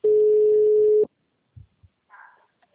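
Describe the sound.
A steady telephone call tone holds one even mid-pitched note for about a second and then cuts off, followed by a few faint, brief knocks and a short rustle.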